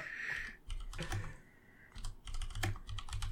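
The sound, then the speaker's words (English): Typing a web search on a computer keyboard: many quick, irregular key clicks come in uneven bursts, fairly crisp and loud, with no talking. “I don't know why I typed that in for my fucking my search.”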